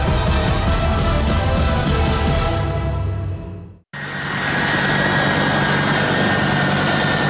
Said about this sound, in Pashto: دا د امریکا د هوایی ځواک د هغې پوځي الوتکې غږ دی